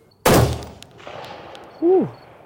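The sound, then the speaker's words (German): A single sharp, loud rifle shot cracks out after the trigger is squeezed slowly, then the sound decays into a quieter tail. “Jetzt ist das Gewehr geladen. Und jetzt kannst du immer wieder vor, schön säuferlich auf den Druckpunkt gehen. Und dann, sobald du auf dem Druckpunkt bist, wirklich ganz langsam anfangen zu ziehen.”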